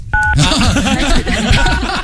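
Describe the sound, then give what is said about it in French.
A telephone keypad tone from a key accidentally pressed by a cheek during a call: one short, clear dual-pitch beep at the start, followed by people talking. “je pense que ton énorme joue est en train d'appuyer sur toutes les touches.”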